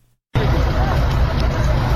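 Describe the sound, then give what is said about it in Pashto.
A vehicle engine rumbles steadily under crowd babble as people work to pull a car out of mud where it is stuck on a broken road to Nesh district in Kandahar, starting abruptly after a brief silence. “د کندهار د نیش ولسوالۍ ته پر دغه غزیدلې لار خلک دغه موټر درایستلو په اڅه کې دي چې د لارې د خرابوالي لامل په یو مند کې بند پاتې دي.”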